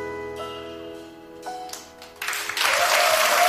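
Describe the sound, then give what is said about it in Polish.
Applause swells in after a song: sustained musical tones ring out and fade, then dense, steady clapping rises and fills the final second and a half. “Pięknie śpiewać. Brawa dla was.”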